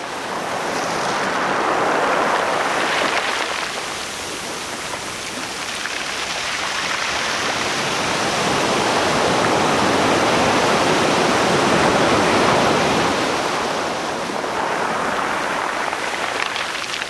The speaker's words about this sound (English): Kim Wilson recorded these California surf sounds. And if you can't get to the beach today, well, maybe this will help keep you cool.